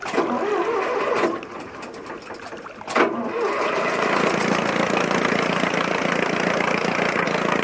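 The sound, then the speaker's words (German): Boat engine starting in the harbor of Bonifacio: a steady, busy mechanical chatter, a short thump, then the motor runs on louder and even, with no clear pauses. “Werfen Sie den Motor an.”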